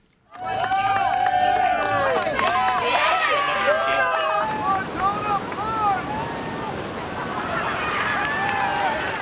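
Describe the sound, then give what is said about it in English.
A television host does a polar plunge into cold water outdoors. Gusty wind, rushing water and excited, shrieking voices run loud and continuous through the whole scene. “Video of you doing the plunge. Yeah. Here's Hoda doing the polar plunge. Yeah. You take a look.”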